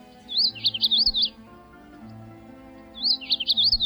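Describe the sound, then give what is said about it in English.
Song of a male magnolia warbler: two short, bright, high-pitched warbled phrases separated by a pause of well over a second. “Male magnolia warblers have been described as having two songs, one in courtship and around the nest,”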